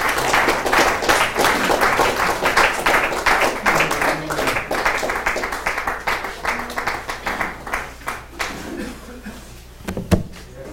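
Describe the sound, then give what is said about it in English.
An audience claps to welcome the next minister, who will give a lecture. Dense, loud applause gradually thins into scattered, separate claps and then dies away near the end. “let's join our hands together and welcome our next minister who's going to minister to us the next lecture”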